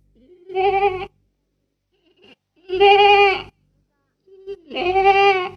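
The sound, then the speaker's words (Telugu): Goat bleating, three separate wavering, nasal bleats spaced a second or so apart, each lasting under a second and fairly loud, with no other sound between them. “మేక”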